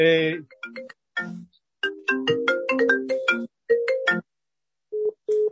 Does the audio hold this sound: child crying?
no